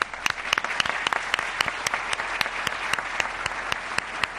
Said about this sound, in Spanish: Vamos a dar un aplauso